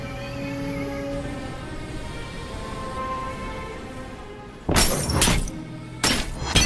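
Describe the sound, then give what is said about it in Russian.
Gunfire with bullets lodging in the window glass of a train carriage sounds as two sharp, loud bursts of cracking, shattering glass near the end, breaking a low steady background. “Не достигнув цели, пули застревают в стеклах.”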